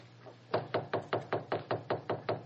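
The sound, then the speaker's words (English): Knocking on a study door: a steady, even series of about ten firm raps at a quick, regular pace, heard alone with no voices. “Here's the door of the study. I'll knock.”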